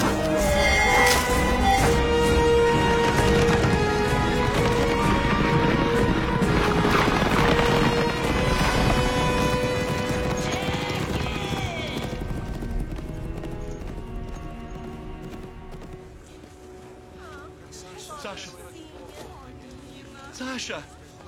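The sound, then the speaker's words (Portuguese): Horses gallop with rapid, steady clip-clop of hooves, loud and continuous under a dense, tonal film soundtrack that slowly fades during the second half. “Para os cavalos, corre!”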